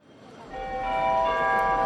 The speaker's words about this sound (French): le 1er août, à la gare.